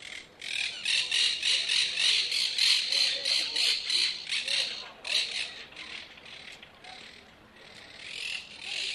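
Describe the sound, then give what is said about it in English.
Monk parakeets give harsh, high squawking calls in a rapid, dense series, loud and grating, with a slight dip in intensity partway through before the chatter picks up again. “Monk parakeets. Yes, one of my favorite monk parakeets.”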